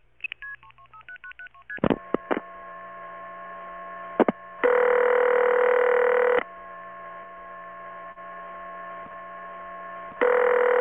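Touch-tone telephone dialing into a conference line: a quick run of short beeps at shifting pitches opens the call. Long steady tone bursts follow over a low, constant hum, with no talk.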